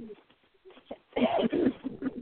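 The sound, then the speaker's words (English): Pet birds cooing, a few soft, low, throaty coos that grow louder and denser in the second half. “Are you talking to the pony bird?”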